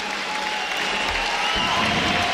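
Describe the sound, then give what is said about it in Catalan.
Applause from the crowd at a sports match, greeting a three-time European champion player. The clapping is dense and steady, a continuous wash of claps that holds at an even, fairly loud level from start to finish. “Aquests aplaudiments són per a... el tres vegades campió d'Europa de Mopa, Kevin.”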